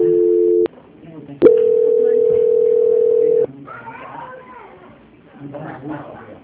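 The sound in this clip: Telephone tones play while a call is transferred: a steady tone, a short pause and click, then a longer steady tone of about two seconds, followed by people talking.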